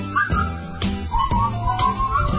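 A person whistles a tune in a single wavering melodic line with short breaks between phrases. The whistling is steady and moderately loud over a low background hum.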